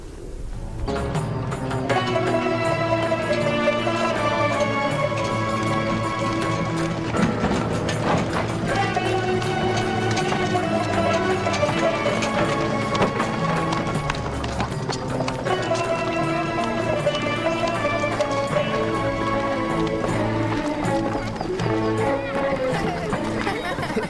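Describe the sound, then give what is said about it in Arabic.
Hooves of a purebred horse clip-clopping in a steady running rhythm, mixed beneath sustained music while people talk. “يا له من فرس لديك يا أصلان. أرادوا شراءه بمئة تومان.”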